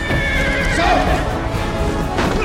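A horse neighs loudly amid clattering hooves as soldiers raid and burn a village at night, the whinny standing out over a dense, continuous wash of noise.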